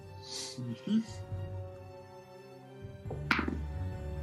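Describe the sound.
A die is rolled for an investigation check, giving a short clattering thunk that stands out briefly amid ongoing talk.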